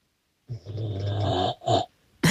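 A man snoring in his sleep: one long, rasping, throaty snore followed by a shorter one, then the start of another, with quiet pauses between them.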